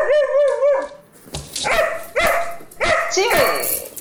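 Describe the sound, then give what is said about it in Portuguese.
A house dog barks: a high, wavering whine gives way to several sharp, loud barks in uneven succession, with voices talking over them. “E ele, o primeiro cão podcaster do Brasil.”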